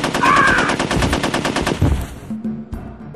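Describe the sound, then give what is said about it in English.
Machine gun fire during an ambush at a cash deal: a loud, rapid, sustained burst of automatic shots for about two seconds, tapering off, followed by a single sharp crack. “I heard shooting. What happened?”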